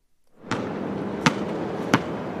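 A basketball bounces on an outdoor court across from the Berry Street houses in Brooklyn, giving a few sharp, separated thumps over a steady background hiss.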